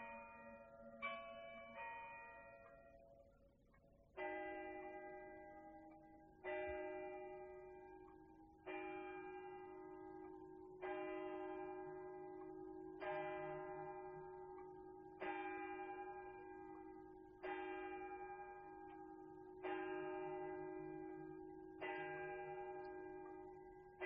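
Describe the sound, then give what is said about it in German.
A church bell strikes twelve o'clock at midnight on New Year's Eve, sounding a long series of slow, evenly spaced, loud ringing strokes. Each stroke's resonant tone hangs and fades into the next, with no voices. “Jetzt schlägt es 12 Uhr.”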